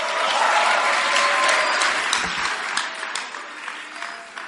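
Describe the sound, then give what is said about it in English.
A church audience applauds to welcome a testimony: steady, dense clapping from many hands that thins and softens slightly toward the end. “Why don't you put your hands together for a powerful testimony?”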